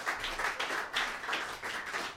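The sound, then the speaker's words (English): Faint applause from an audience, a soft wash of clapping that swells and dips in gentle pulses. “ladies and gentlemen, let's have a round of applause.”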